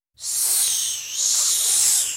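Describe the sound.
A snake's hiss, one loud, breathy, high-pitched rush that starts abruptly and holds for about two seconds, easing slightly midway before swelling again, heard alone.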